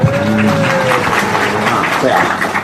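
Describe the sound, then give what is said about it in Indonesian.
Audience clapping at a Javanese-language gathering: a steady, dense patter of applause lasting a few seconds, with a voice and a held tone running beneath it. “Tepuki.”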